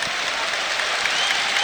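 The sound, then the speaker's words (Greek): Olympiacos fans applaud during a basketball final, their clapping dense, steady and fairly loud throughout the short stretch. “Χειροκρότημα από τους φίλους του Ολυμπιακού.”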